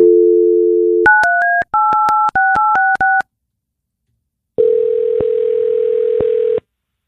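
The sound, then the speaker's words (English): A telephone call being placed: a steady dial tone, then a quick series of many short dialing beeps at shifting pitches, a pause, and a long, even tone with slight breaks in it. “so we're going to get your cousin Nick on the phone. Let's just get right to it.”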